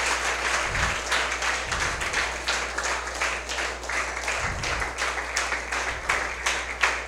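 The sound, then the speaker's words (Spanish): A church audience applauds during an evening service. The clapping is steady, moderately loud and unbroken from start to finish, with a low hum underneath. “Vamos a darle un aplauso fuerte a Jesús en esta noche.”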